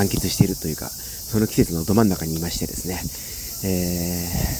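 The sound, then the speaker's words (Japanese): Cicadas in a well-kept summer garden around a shrine grove in Ichikawa, Chiba, Japan, a steady, high-pitched buzzing chorus that runs under a person talking throughout. “今、セミが鳴いておりますが、”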